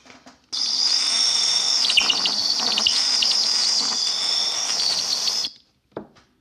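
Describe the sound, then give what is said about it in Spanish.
A little bird's chirping song rings out as a shrill, high, continuous trill, loud and steady for about five seconds. It cuts off abruptly, and one brief faint chirp follows. “Así es, como el canto de un pajarito chiquitito, chiquitito.”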